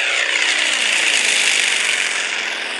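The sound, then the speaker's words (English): Roaring engine of a Yak 50 aircraft as it accelerates and climbs away after takeoff, a loud, steady, dense drone with strong harmonics that holds throughout and eases off only slightly near the end. “We're accelerating and climbing away from the airport. 35 degrees nose up, and we're still accelerating. Lots of power in the Yak 50.”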